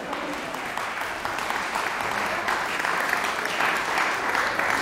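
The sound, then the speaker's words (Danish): Audience applause welcomes the musicians at an Østerbro chamber music festival concert. The clapping is dense and continuous, fairly soft and even from start to finish. “Nu er det ikke mig, vi skal spille. Vi må vente lidt med applauserne.”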